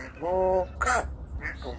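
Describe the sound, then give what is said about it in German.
A grey parrot in South Africa, taught to sing by a rugby fan, holds a clear harmonic sung note. It then gives a harsh, raspy squawk-like burst and a couple of shorter, fainter calls. “Natürlich war es ein Rugby-Fan, der seinem Graupapageien beigebracht hat zu singen.”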